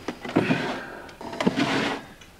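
Someone searches through a chest of drawers. Two sliding, scraping drawer movements each end in a soft knock, moderately quiet and with no voices.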